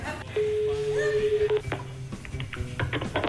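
Telephone dialing tones as a woman is called back for a TV prank call: a steady held tone, then a quick series of short keypad beeps over faint background noise.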